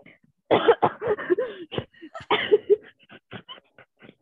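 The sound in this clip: Harsh, repeated coughing and throat clearing after something went down the throat on a breath in. Many short rasping bursts come in two fits separated by a brief pause, with no talk.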